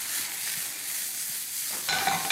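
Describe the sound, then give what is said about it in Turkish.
Mushrooms sizzle loudly in a pan as capia pepper and garlic go in with them. The frying is a steady, bright hiss that grows sharper and louder just before the end. “Gayet güzel kavruldu. Hemen içerisine kapya biberi ve sarımsağını ekliyorum.”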